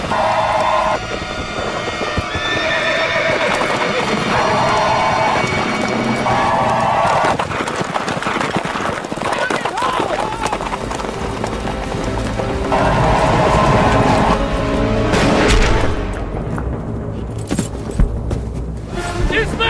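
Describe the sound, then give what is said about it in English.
Cavalry horses galloping into a Sioux camp: steady, dense clip-clop of many hooves running continuously under a loud dramatic musical score. “As they gallop into the Sioux camp, Custer makes a tactical decision and splits his cavalry into four parts.”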